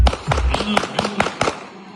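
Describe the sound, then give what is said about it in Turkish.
Sharp gunshots fired into the air at a wedding in Şanlıurfa crack out in a rapid string of several loud bangs, with voices in the background. “Düğüne giden bir kişi oyun esnasında silahına davrandı. Havaya doğru bir anda ateş etmeye başladı.”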